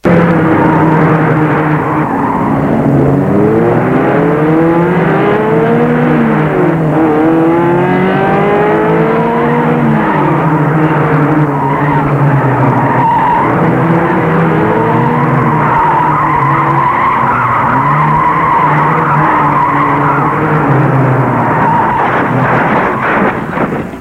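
Car tires squealing as the car skids after missing a bend, with loud, continuous engine revving whose pitch sweeps up and down for about twenty-four seconds.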